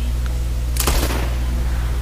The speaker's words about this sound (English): Gunshots! Get the guns!